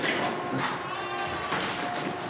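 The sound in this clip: A goat bleats on a farm while animals are let out of a pen. A wavering, nasal bleat rises out of steady background noise.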